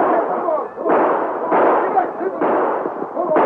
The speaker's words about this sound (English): The passengers and the crew forced from the train to send a few parting shots after them.